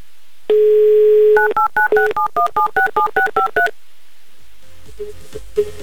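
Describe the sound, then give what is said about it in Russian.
A telephone dial tone holds steady for about a second, then a rapid run of many short, evenly spaced keypad tones follows. The beeps are loud and clear and have a musical quality. “Какие интересные гудочки такие, прям как музыка.”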